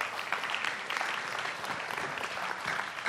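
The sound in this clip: Audience applause welcomes a guest speaker to the stage at a Baptist church: dense, steady clapping from a crowd sustained evenly throughout, with no voices on top.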